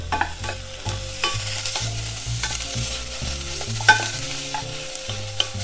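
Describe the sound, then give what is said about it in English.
Onions frying in a pan, edges just turning golden, are stirred: a steady sizzling hiss with scraping stir strokes and a couple of sharp crackles, with no talking. “Now I'm gonna give it a stir.”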